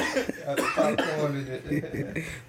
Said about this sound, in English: This nigga over here choking, trying to breathe and shit.